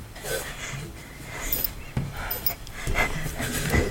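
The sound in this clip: Heavy panting from someone out of breath while making dough in a home kitchen, a run of quick, rough breaths that keeps up throughout and grows slightly louder toward the end.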